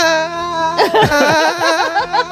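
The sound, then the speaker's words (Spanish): Someone cries in a radio studio, sobbing in a wavering voice with quivering, swooping pitch over a steady tonal background. “Sal del estudio y llora fuera. Vale, llora fuera porque el programa al final, vale, los oyentes no tienen por qué soportarlo.”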